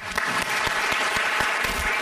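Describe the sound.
Audience applause welcoming a panel of speakers: dense, steady clapping that fills the whole two seconds at an even loudness, with no voices over it.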